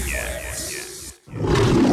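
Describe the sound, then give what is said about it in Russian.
A lion roars loudly: a rough, broad roar swells after a brief silence, preceded by other growling sounds. “В наших джунглях закон один. Если лев голоден, он ест.”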